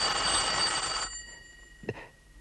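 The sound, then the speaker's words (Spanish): A telephone bell rings in a steady, bright trill for about a second and then stops. Afterward a single short click or knock is heard in the quiet. “Déjelo, no lo coja. Pero está sonando. Alguien está llamando.”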